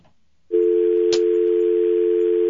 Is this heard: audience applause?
no